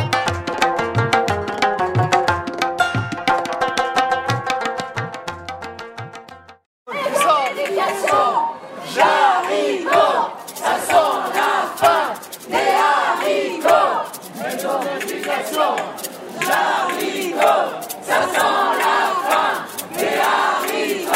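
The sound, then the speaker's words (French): Crowd chanting and shouting at a street demonstration against the purchase of a museum by a school. The voices come in loud, rhythmic surges after a few seconds of sustained tones. “Les sons que vous venez d'entendre, c'est les échos de la manifestation contre le rachat du musée Tradition et Vie par l'école Pauline-Marie Jaricot.”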